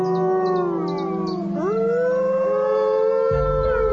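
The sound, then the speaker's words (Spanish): Wolves howl in long, overlapping sustained tones, a rival pack heard in the distance. Several voices hold steady notes while one dips and then rises in pitch midway. “deben aprender a hacer frente a una manada rival que aúlla en la distancia.”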